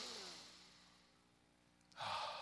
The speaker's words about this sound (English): I'll take a couple deep, relaxing breaths.